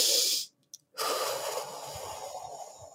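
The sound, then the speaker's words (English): A long, controlled breathy exhale streams out steadily for about two seconds during breathing practice under cold exposure. A short breath and a brief silent pause come before it. “the breath work you do want to do during the cold exposure is a long, controlled exhale. And I like to add a vibration so you can go”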